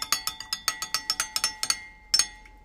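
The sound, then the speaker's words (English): A spoon clinks against a cup while stirring brandy and warmed zabaglione: many quick, bright, evenly spaced taps, a short pause, then a final sharper double clink. “could you pass me a spoon? Thanks. Just give it a little stir in.”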